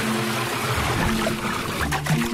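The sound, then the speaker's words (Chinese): Shower water runs in a small, steady trickle, a continuous splashing hiss that holds at an even level throughout. “不如这样。小水流奏响欢乐节水乐章。”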